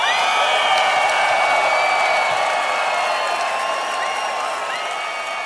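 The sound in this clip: Crowd applause welcoming a guest at a live fishing show, a dense, steady wash of clapping that holds at the same level throughout with no talk over it.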